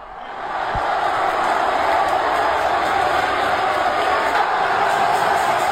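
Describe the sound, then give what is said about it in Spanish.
Roaring crowd inside the Roig Arena: a dense, loud wall of voices that swells in the first second and then holds steady and unbroken. “Sonido del Roch Arena, así sonaba y así rugía el público.”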